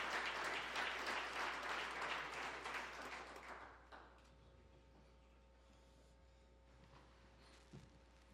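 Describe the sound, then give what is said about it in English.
A church revival audience applauds to welcome the preacher. The dense burst of clapping thins and fades out after about four seconds, leaving a low steady hum with a few faint ticks. “If you would, put your hands together and welcome Craig Edwards.”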